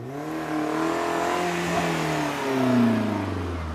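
A drift car's engine revs steadily on a sandy, grassy course, a continuous mid-pitched drone that slowly sags in pitch and swells louder near the end.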